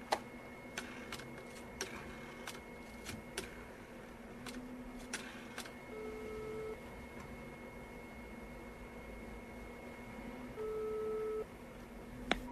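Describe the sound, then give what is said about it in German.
A telephone call rings on the line with two short, low, steady tones a few seconds apart, preceded by scattered faint ticks and clicks over a quiet hiss. “Hier ist seine Nummer. Wir könnten ihn gleich mal anrufen.”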